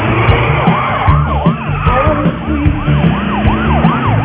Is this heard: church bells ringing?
no